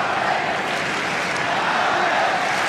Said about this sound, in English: And the crowd really starting to wake up with Zverev at 3-4 and 30 all.